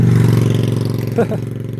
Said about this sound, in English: this motorcycle, is just, I see him quite a few mornings, and it's still pre-sunrise, and he has lights on the bottom of the motorcycle that point down